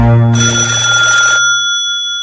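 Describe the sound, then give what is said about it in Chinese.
Telephone bell ringing: a single loud, bright, metallic ring of about a second, then a lingering tone that fades away with nothing else following. “一会儿电话铃又响了”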